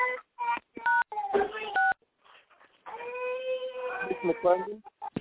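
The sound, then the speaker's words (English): Telephone keypad beeps from pressing star six on a conference phone line, two short tones among bursts of talking. “If folks can hit *6 on their personal line, we can keep the background noise to a minimum, and then you can hit *6 to open the line and answer a question.”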